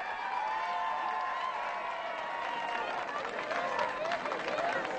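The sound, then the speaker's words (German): A crowd of faithful cheers and claps for the Pope at a cathedral, forming a continuous, moderately loud roar with drawn-out vocal tones running through it. “Der Papst hat sich soeben den jubelnden Gläubigen zugewandt.”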